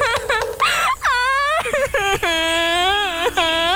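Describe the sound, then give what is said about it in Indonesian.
A person crying in drawn-out, wailing sobs, loud and high with a wavering pitch, broken by short catches of breath between the cries. “Kamu nangis kenapa?”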